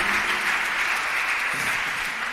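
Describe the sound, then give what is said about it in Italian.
An audience applauds with dense, steady clapping that holds at an even, fairly loud level throughout, with no voices on top. “Cari amici, il vostro applauso è alla Vergine, che maestra spettacolare, eh?”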